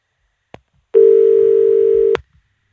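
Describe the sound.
A telephone line tone after a caller's call was cut off: one steady, unbroken mid-pitched tone held for just over a second, with a sharp click before it and another as it stops.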